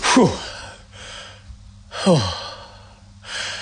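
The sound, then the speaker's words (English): A person takes a few slow, deep breaths. Two louder, sighing breaths stand out, with quieter breathing between them, and no talking is heard. “I'm taking four breaths.”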